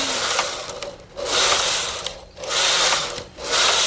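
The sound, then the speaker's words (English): A knitting machine runs in repeated whirring, rasping passes, its carriage sweeping back and forth in a few long surges with short dips between them. No voices. “It is a machine, and if you're not careful, it doesn't do it right. Then you bend needles sometimes. Then you bend needles. Then it won't knit at all.”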